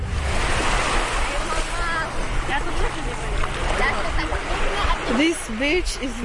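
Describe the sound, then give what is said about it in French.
Sea waves roll onto a beach at Marbella on Spain's Mediterranean coast, a steady, loud rush of surf mixed with wind noise, while voices speak over it. “Cette plage s'appelle Marbella, la belle mer. C'est la même mer qu'en Israël, mais depuis la rive opposée.”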